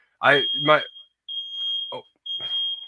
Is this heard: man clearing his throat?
no

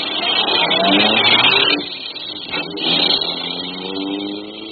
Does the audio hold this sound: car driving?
yes

